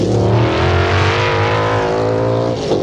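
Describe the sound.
Race car engines at the Mosport circuit, a loud, continuous, harmonically rich drone of high-revving motors that holds a fairly steady pitch throughout, with a slight shift just before the end.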